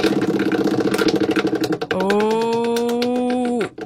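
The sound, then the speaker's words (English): Spinning prize wheel sound effect: rapid, regular ratcheting clicks for about two seconds, then a sustained, steady buzzing tone that holds before cutting off near the end. “Right, here's our random wheel for tonight.”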